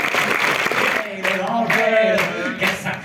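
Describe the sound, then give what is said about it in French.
Audience applause at an award ceremony for a public prize: a dense wash of clapping fills the first second, then thins and carries on beneath a talking voice. “On peut les applaudir.”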